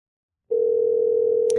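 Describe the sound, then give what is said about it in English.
Steady dial tone of a phone call placed over Skype starts after a brief silence and holds one unwavering mid pitch at constant loudness, with a faint click near the end. “I'm going to give him a call right now and, see if he's there. Hopefully it'll dial. Oh, there it goes.”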